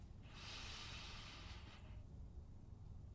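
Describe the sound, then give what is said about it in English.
A single slow, deep breath drawn in as a soft, breathy hiss, lasting under two seconds and very faint over a low background hum. “And then I take a deep breath.”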